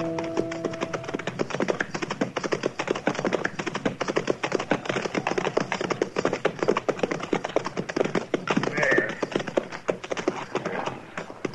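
Horses' hooves clip-clop as riders set off together, a dense, rapid clatter of hoof beats that keeps up steadily for the whole stretch with no pause.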